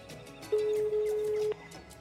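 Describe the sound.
Ringback tone on an outgoing telephone call: a single steady ring of about one second, clearly above a quiet, continuous background noise.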